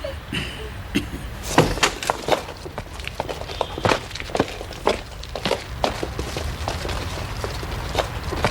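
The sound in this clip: Footsteps of a man walking away toward home: a long run of irregular, fairly crisp steps, some heavier than others, continuing alone throughout.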